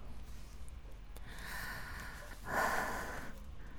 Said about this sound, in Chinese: 在我的颈窝里，您粗重的呼吸痒痒的，给周围的皮肤都升温了。